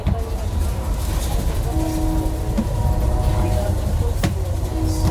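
Steady running noise inside a moving passenger train carriage that has a dining car, a dense low roar of wheels and rails with a sharp click near the end, continuous and loud throughout.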